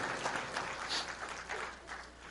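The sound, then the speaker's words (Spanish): Churchgoers applaud during a worship service with soft, continuous clapping that swells and eases in uneven waves and stays fairly faint throughout. “si se aplaude para Él, déselo a Él bien. A mí no me aplauda, apláudale a Él.”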